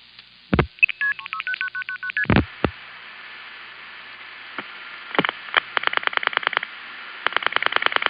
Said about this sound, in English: Commerce NX1, which dials the last four digits into the Jefferson Stromberg XY.